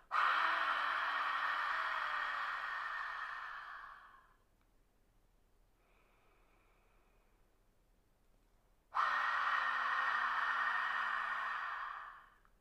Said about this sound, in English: So just doing that a couple of times, inhaling through the nose, feeling the belly rise, exhaling.